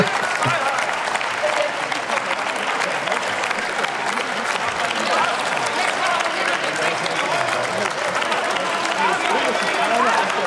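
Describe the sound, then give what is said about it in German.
Applause in the German Bundestag, a loud, sustained, dense clapping that fills the whole ten seconds at an even level, with voices mixed in. “Scheiße, jetzt kriege ich ja noch von der falschen Seite Beifall.”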